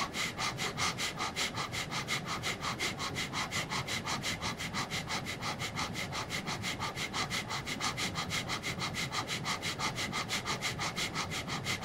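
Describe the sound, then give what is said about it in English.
Fast, forceful exhaling breaths during a morning meditation and breathing exercise, repeating in a steady, rapid rhythm of many short, airy puffs at an even volume throughout, with no talk. “and exhale, inhaling again. Exhaling a little faster now.”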